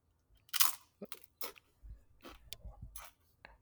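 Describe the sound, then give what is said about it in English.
Faint crunching as someone bites into a chip coated in seasoning dust, with several crisp, sharp crunches separated by short pauses and softer chewing between them. “Now there's all this fucking whatever dust they put on this chip. All right, I'm just going to take a... I'm going to take a bite and see what's up.”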